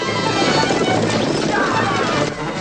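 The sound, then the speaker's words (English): A horse gallops at full speed after a wagon, its hoofbeats forming a dense, loud, unbroken rumble that dips slightly just before the end. “Dusty flicks the reins. Cascade Joe's horse gallops at full speed after Tim's wagon.”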